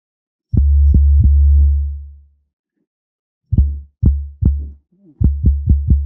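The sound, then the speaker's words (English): Physically modelled synthesis of a mass and one link with increased damping produces deep, thudding tones: one longer resonant burst, then several short, quickly decaying low thumps with silent gaps between. “But the nice thing about physical models is then you have all these parameters you can adjust. So we could increase the damping.”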